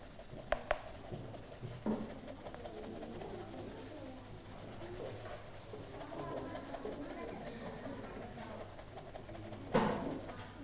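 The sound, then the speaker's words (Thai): Faint brushy rubbing as a surface is polished with a brush touched to wax, a soft, scratchy, uneven texture with a few sharper clicks near the start and end. “ไปแตะที่ขี้ผึ้งนะคะเพียงเล็กน้อยนะลูกนะแตะเพิ่มขึ้นได้เรื่อยๆนะคะถ้านักเรียนเห็นว่าทำไมลูกยังไม่พอแล้วเวลาขัดเห็นไหมคะ”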